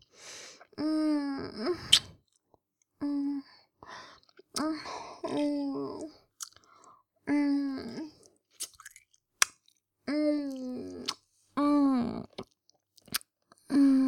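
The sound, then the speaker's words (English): Wet licking and smacking mouth sounds come in short, close bursts, interleaved with soft voiced hums and murmurs, at a fairly quiet level. “Let me lick that off you.”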